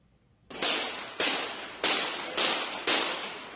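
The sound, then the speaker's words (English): Gunshots ring out in news footage of a shooting: five sharp, loud bangs spaced about half a second apart, each trailing off in a decaying echo-like tail. “Yeah, that's the shooting there, and I'm telling you, everyone's talking about it.”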